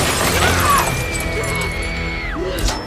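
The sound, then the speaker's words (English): A car's passenger window shatters as it is hit by nail gun shots, giving a bright glassy crash over a loud, steady backdrop with sweeping tones. “Ash continues shooting and shatters the passenger window.”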